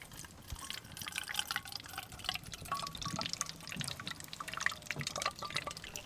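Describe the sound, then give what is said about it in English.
A water sample is poured into a sampling bottle: a faint, continuous trickle of liquid with scattered splashy drips and small glassy ticks runs steadily throughout, with no voices. “So now that we've rinsed our bottle 3 times, we're going to fill it up with sample.”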